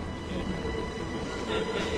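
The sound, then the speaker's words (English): A subway train rumbles and rattles along its track as it emerges from a tunnel, a steady, fairly quiet low roar with faint metallic clatter that swells slightly near the end. “As Alex moves forward, the subway train emerges from a tunnel into bright daylight.”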